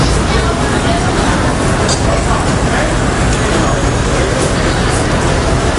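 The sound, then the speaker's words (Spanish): Morning street traffic in Manhattan, New York: a dense, unbroken roar of vehicles and city noise, with a steady murmur of many voices blended throughout. “Este es el sonido de Nueva York a las 8:30 de la mañana del 11 de septiembre de 2001.”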